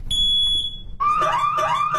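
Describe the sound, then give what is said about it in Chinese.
Shrill alarm from a white wireless smoke sensor: a steady, piercing high tone holds for most of the first second, then after a brief gap gives way to a lower, rapidly warbling, chirping alarm pattern that stays loud to the end. “一个白色烟雾传感器发出尖利警报声，这个传感器的妙处就在于无线，成本低。”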